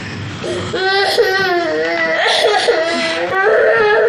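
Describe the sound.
Young child crying, a loud, continuous high-pitched wail with wavering, sobbing pitch that rises and falls in repeated bursts without pause for the whole stretch.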